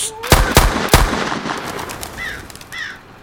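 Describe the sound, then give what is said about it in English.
Three loud gunshots ring out in quick succession, each a sharp crack with a trailing echo, followed by two brief, high chirping whistles as the noise fades. “Claymation's fucking dead, brother. Someone shot his ass. They shot his ass dead.”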